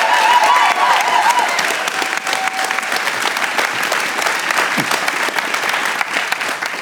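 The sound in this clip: A church audience applauds to welcome a speaker, one of its elders, with loud, dense, sustained clapping that holds steady for the whole stretch.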